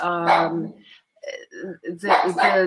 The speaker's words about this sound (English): Sorry about the dog.